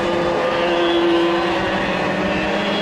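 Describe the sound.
Race car engines roar on a circuit as several cars run close together through a corner, a loud dense drone with a sustained high whine that holds steady throughout.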